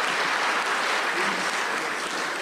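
Loud applause from an audience at a spiritual gathering, congratulating a birthday: many hands clapping in a thick, continuous roar that holds steady and eases only slightly toward the end.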